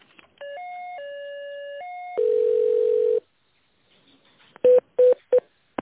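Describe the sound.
Telephone tones as a call is transferred: a short sequence of electronic notes stepping up and down in pitch, then a long steady tone, and finally three short, loud beeps in quick succession.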